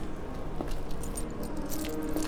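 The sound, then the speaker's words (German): Keys jangling as a hotel room key is handed over, heard as a few faint metallic clinks over a low steady background. “Den Schlüssel für Zimmer 212, bitte.”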